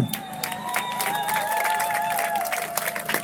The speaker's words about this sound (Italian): un grande applauso ad Emilio!